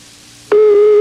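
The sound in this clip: Ringback tone of an outgoing telephone call: after a faint hiss, a loud steady low tone begins abruptly and holds unbroken to the end.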